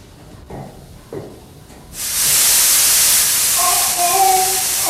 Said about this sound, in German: Mein Gott, ein Dampfrohr ist geplatzt.